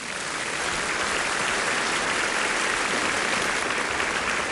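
Dense audience applause at the founding meeting of the Zunyi County Red trade union, welcoming Liu Qunxian, head of the women workers' department of the Chinese Soviet All-China Federation of Trade Unions; a steady, loud wash of clapping without pause.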